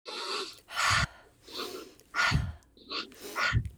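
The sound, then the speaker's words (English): Yogic pranayama breathing, forceful in-and-out breaths through the nose in a regular rhythm, softer breaths alternating with stronger, louder ones over about three cycles, with no talking. “it's a pranayama um, kind of yogic breathing practice where you breathe in when you put your arms up and you breathe out when you bring them down.”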